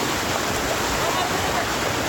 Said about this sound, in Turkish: yeniden kuvvetli yağış birçok kentte etkili oldu. Yollar göle döndü. Kimi yerlerde su baskınları vardı. İşte yurttan yağış manzaraları.